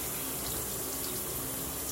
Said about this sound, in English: I'm just sitting down, and the water is so nice. I just love the way it feels. I'm like under a little waterfall here